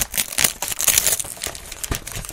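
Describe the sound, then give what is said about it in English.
Crinkly wrapping paper printed with elephants rustles as a gift is unwrapped. The crackling runs throughout, with several sharper, louder crunches and tearing bursts, and no voices are heard. “Should I open it all crinkly here? Yeah, yeah, yeah. This is nice wrapping paper.”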